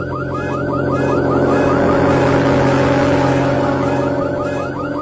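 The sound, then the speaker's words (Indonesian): Car alarm sounding loudly in repeated rising-and-falling chirps, heard over a dense, steady low hum that continues throughout. “Aku pun mematikan alarm mobilnya.”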